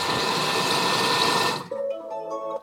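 A robot kitchen machine mixes with a loud, steady whirring motor drone. After about a second and a half it stops, and a short, clear tonal chime follows.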